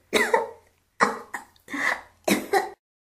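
A woman coughing harshly in several loud, rough bursts with short pauses between them and no talk.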